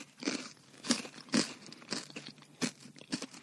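Quiet crunching and chewing of salted beetroot fries. Soft, crisp bites come in an irregular series of many small crunches with short pauses between them, and no talk.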